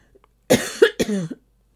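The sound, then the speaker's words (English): A person coughing repeatedly, a few harsh, raspy bursts in quick succession within about a second, with a short catch of breath between them and no speech. “Watch me, I'm going to cough. Excuse me. See, it's not going to stop.”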